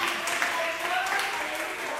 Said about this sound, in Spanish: Denle palmas al Señor si todavía está aquí.